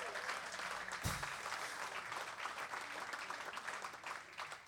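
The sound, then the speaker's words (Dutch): Audience applause at a jazz concert, quiet but dense and continuous clapping that holds at an even level, with one brief thump near the start. “En een extra applaus voor Peter Librom.”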